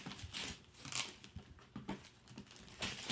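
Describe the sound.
Tearing and crinkling as a heavily taped package is ripped open: irregular bursts of ripping tape and rustling cardboard, fairly faint, with no talk.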